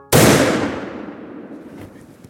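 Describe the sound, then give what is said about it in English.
A single gunshot fired while hunting an animal in the woods: one loud, sharp crack that sets off a long, slowly fading tail. “And then, I pulled the trigger.”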